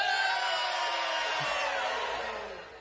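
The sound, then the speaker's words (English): A crowd hollering loudly together on a count of three: a sustained mass of yells and whoops that holds steady, then tapers off toward the end. “On the count of three, we're going to holler real loud, and then we're going to take a swaller of our drink, all right?”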